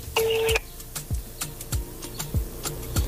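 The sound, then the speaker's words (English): A telephone number is dialed on a touch-tone phone: one clear touch-tone beep sounds first, followed by a run of regular, faint ticking clicks. “So I just want to dial the number and find out if the money has been received.”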